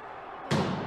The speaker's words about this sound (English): And that's the sound from inside the Capitol as they hammer at the exterior doors.